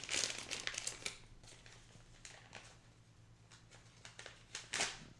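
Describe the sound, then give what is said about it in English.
Paper crinkles and rips as an envelope is torn open at an awards announcement. Quiet bursts of rustling and tearing come unevenly, with louder crackles at the start and near the end. “And the award goes to, if I can get this envelope open...”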